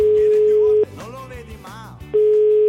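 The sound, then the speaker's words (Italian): A steady telephone tone sounds after a caller is hung up on, loud and unbroken at first. It drops out for about a second as other brief sounds pass over a low rhythmic backing, then comes back just as strong. “Telefono in faccia, è finita, Cruciani”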